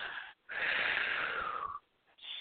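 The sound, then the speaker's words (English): A deep breath is taken in through the nose and out through the mouth during a guided breathing exercise. It is a loud, airy rush lasting about a second, followed by a short pause before another breath begins. “breathe a big breath in through your nose and out through your mouth”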